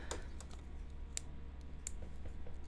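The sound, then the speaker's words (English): Fidgeting clicks and taps: a scattering of sharp, faint clicks at irregular intervals over a low steady hum, with no talking. “You can hear me fidgeting and clicking and tapping.”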